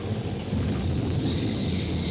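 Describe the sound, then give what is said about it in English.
Deep rolling thunder from a tornado storm, a continuous loud low rumble with broad noisy roar like heavy rain and wind, sustained without break for the whole stretch. “Finally, with one mighty clap of rolling thunder, the tornado spends itself in a last effort.”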